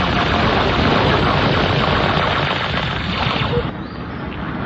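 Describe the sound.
Gunfire in a video game: dense, rapid automatic bursts that merge into one continuous loud clatter, easing slightly near the end.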